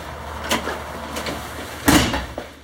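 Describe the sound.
A door is opened to let a policeman in: a few short clunks and rattles, with a louder knock-like clatter near the end and a small click after it.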